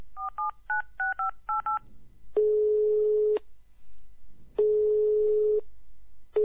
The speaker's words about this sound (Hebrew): מי מתקשר אליי? שמתם לב? היה לי טלפון ברגע זה.